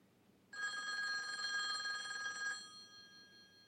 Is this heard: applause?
no